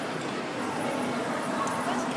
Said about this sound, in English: this is the unmistakable sound of an amusement hall on the Palace Pier in Brighton. Actually, it's no longer called the Palace Pier, it's called the Brighton Pier